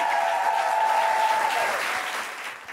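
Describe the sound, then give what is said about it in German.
An audience applauds a performer after a stage set, a dense, steady clapping that holds evenly and then fades slightly toward the end. “Macht nochmal Lärm für Julia Brandner!”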